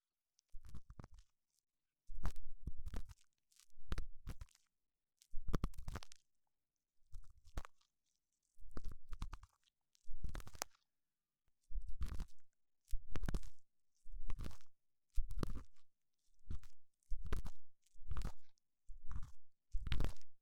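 Scratchy strokes of an ear pick cleaning an ear for ASMR, a long series of short crunchy scraping bursts at a fairly regular pace with brief silences between them, no talking.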